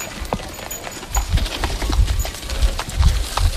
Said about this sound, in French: Le projet associe de nombreux habitants de la localité, comme Aliou Konaré, qui contribue au ramassage des ordures à l'aide d'une charrette. Il circule dans les quartiers une à deux fois par semaine.